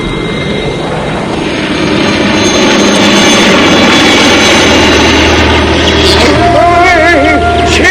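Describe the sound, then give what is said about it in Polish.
Airplane flying overhead, a roaring engine drone with whining tones that swells after about two seconds and then holds loud and steady to the end. “A co to? Samolot?”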